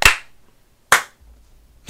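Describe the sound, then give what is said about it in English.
A group claps together in unison on a count, giving two sharp, loud bursts of applause less than a second apart, each dying away quickly before a low hum sets in. “And then if we can clap all together. 3, 2, 1.”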